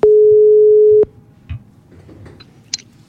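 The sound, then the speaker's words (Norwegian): A telephone call rings out with one steady, mid-pitched ring tone lasting about a second. The line then falls quiet apart from faint clicks and small noises. “Ja, så ringer jeg til Edvin veldig raskt.”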